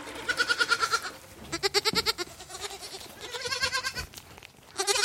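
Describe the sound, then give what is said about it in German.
Young goats and lambs bleating in a wooden stable during lambing season, with many wavering, overlapping bleats, some higher and some lower, rising and fading in quick succession. “Mein Hauptjob ist es, 70 Lämmer aufzuziehen. An ihrem ersten Lebenstag füttere ich den Zicklein die Biestmilch der eigenen Mutter mit der Flasche.”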